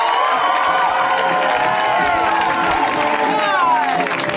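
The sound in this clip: An audience at a comedy show cheering and applauding to welcome a comic on their first appearance, a loud, unbroken roar of clapping with whoops and shouts throughout.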